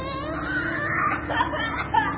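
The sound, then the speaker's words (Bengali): Muffled sobbing and whimpering of someone crying behind a closed door at night: a continuous, faint weeping with a few sharper catches of breath. “কান পেতে শুনলাম, হ্যাঁ ঠিকই, কান্নার আওয়াজ। কেউ যেন ফুপিয়ে ফুপিয়ে কাঁদছে।”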